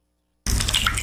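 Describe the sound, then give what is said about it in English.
Water from a leaking flat roof starts abruptly after a moment of silence, becoming a dense, steady wet patter of drips and splashes that continues loudly to the end. “Hear that? That's the sound of a flat roof someone didn't call MJ Dawson to fix.”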